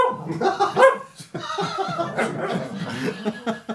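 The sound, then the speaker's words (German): A Lagotto Romagnolo, an Italian water dog, barks in a quick run of loud, rough barks that vary in pitch, with no speech. “Welche Rasse ist das? Das Lagotto Romagnolo. Ein italienischer Wasserhund.”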